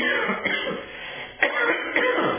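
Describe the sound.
Throat clearing from a man, a few rough, gravelly bursts that rise sharply and fade, heard on their own without speech.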